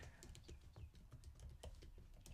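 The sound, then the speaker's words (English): Keystrokes clatter on a computer keyboard as someone types, many quick, faint taps in an uneven rhythm with brief gaps between bursts. “I'll type it in.”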